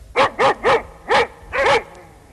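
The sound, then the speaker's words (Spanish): Dogs bark at night in a quick, uneven series of about six sharp, loud barks. A couple of the barks run close together, with no talking around them. “Los perros ladran”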